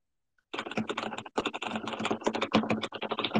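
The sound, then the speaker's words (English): Typing on a computer keyboard begins after a short silence and turns into a rapid, uneven stream of many light key clicks. It stays fairly faint and continues to the end. “You like my keyboard noises? My keyboard noises.”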